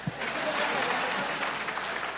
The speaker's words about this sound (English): you guys clap it up.